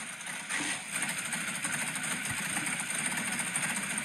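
A 627-horsepower engine idles after start-up, giving a steady, rumbling drone with a fine throbbing texture at low, even loudness throughout.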